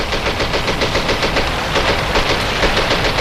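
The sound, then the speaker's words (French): Rapid gunfire in a combat scene from a military instruction film about French soldiers in Indochina. Many sharp shots come in fast, fairly regular bursts at a steady, loud level, with no voices. “Ça canarde sec”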